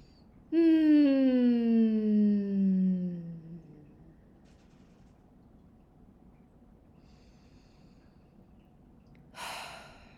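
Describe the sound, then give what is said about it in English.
Deep breathing begins with a long, voiced, sighing exhale that falls in pitch over about three seconds. After a quiet pause, a short, airy breath comes near the end. “Take a big inhale. Exhale. One more inhale.”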